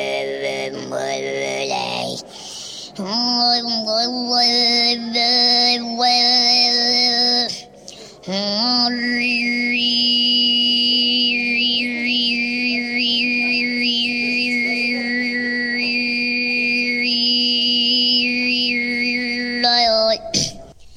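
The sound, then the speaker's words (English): Tuvan throat singing from a solo voice: a low, steady drone carries a bright whistling overtone that shifts between pitches like a melody. It breaks off briefly twice early on, then holds almost unbroken to the end. “The sound you are hearing is what is known as throat or harmonic singing.”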